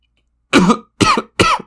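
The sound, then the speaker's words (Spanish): Three harsh coughs from a gagged, injured person struggling to breathe, the first longer and rougher, the next two shorter and quickly following each other, loud against silence. “Tosía para intentar respirar hasta que escupió sangre en el pañuelo.”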